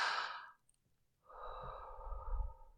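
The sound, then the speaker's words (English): Soft, close breathing as someone breathes along a man's chest. One airy breath fades into a brief pause, followed by a longer, gently rising breath. “breathe along his chest.”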